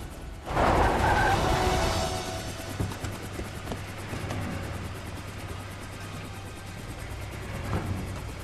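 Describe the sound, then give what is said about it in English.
Vehicles pull up through thick smoke: a loud engine roar and broad road noise surge in at the start, then settle into a steady low engine hum with a few scattered knocks. “The assassin's vehicles pull up in thick clouds of smoke.”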